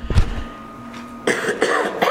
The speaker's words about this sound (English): I apologize ahead of time for coughing.